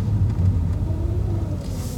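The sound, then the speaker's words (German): A car driving into a parking lot, heard as a steady, low engine and road rumble with little change, ending with a faint airy hiss. “wir sind jetzt gerade auf dem Parkplatz gefahren”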